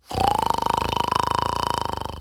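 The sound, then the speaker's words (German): A man snores loudly on a sofa, a long buzzy rasp with rapid, even pulsing, holding a steady mid pitch after a slight rise at the start. “schnarchte auf seinem Sofa, als wollte er einen ganzen Eichenwald kurz und klein sägen.”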